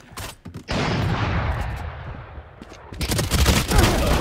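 Gunfire in a shooter video game during a sniper exchange: a sharp burst opens into sustained, loud rattling noise, then denser crackling shots return toward the end, with no talk.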